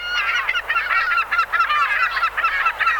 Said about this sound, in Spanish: Había todo tipo de aves. Escucha. Los patos.